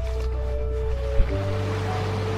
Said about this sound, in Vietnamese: giữa đại dương bao la hùng vĩ, nơi muôn vàng kỳ quan hội tụ